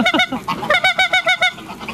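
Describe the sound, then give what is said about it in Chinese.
Rapid series of nasal honks from a flock of farmed wild geese kept in pens, a loud, rhythmic chain of harmonic calls with no talk over them. “张建虎目前共驯养了200多只大雁，按照年龄的不同，新雁和老雁分开养在不同的笼子里。”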